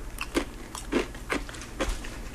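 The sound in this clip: Crisp crunching bites of a very thin Japanese confection from Kumamoto, about four evenly spaced crunches with chewing between them, fairly loud and with no talk over them.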